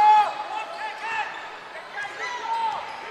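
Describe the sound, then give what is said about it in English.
A basketball is dribbled on the court during an LCO versus Golden Meadow high school basketball game, with ball bounces mixed with high shoe squeaks while a commentator talks over them. “dribbles the ball back out top of the key.”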